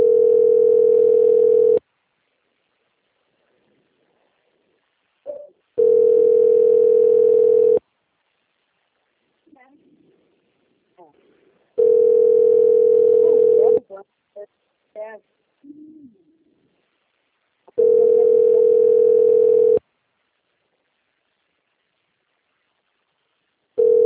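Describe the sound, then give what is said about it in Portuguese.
Telephone line tone repeats while a call is placed: a steady, loud, mid-pitched tone sounds in bursts of about two seconds, four full bursts plus the start of a fifth, with faint scattered sounds in the silent gaps. “tava fazendo uma ligação. Prova no som.”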